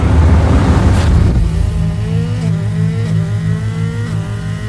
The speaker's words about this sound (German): Die Straße geht jetzt schnurgerade durch die Wüste. Ich trete aufs Gas und will sehen, ob ich das Auto so schnell kriegen kann, dass wir abheben.